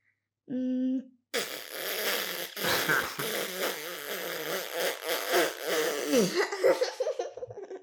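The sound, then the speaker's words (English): Lips buzz into a trumpet mouthpiece, starting with a short, steady pitched buzz. After a brief pause comes a longer stretch of rough, fluttering, sputtering buzzing that wavers in loudness. “there's a mouthpiece, and I learned how to make the sound, to make the sound of the trumpet, and it goes like this.”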